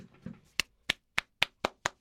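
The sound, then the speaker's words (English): One person clapping hands, six sharp, distinct claps in a quick, even rhythm following a brief soft sound at the start. “This is me clapping, and this is me. I'm standing now.”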